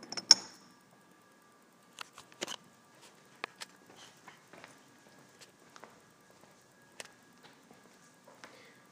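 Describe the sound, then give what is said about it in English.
A man's footsteps walking on concrete: faint, sharp, irregularly spaced scuffs and taps scattered through a very quiet stretch. “This is the sound of the man walking on concrete, I think.”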